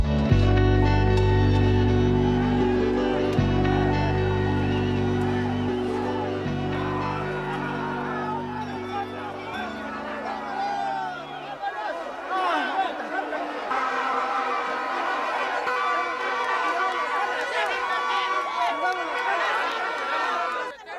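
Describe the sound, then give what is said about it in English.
Dense crowd noise in the streets of Guatemala during a presidential inauguration. Loud music with a heavy low beat fills the first half, then gives way to many overlapping voices and chatter. “This was the sound of the streets of Guatemala”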